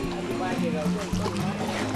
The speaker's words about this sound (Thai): พานักท่องเที่ยวเที่ยวชมวิถีชีวิตสองฝั่งคลองครับเขาพายเรือกันแข็งแรงมากครับนั่งเรือไปผมก็ชื่นชมบรรยากาศสองฟากไป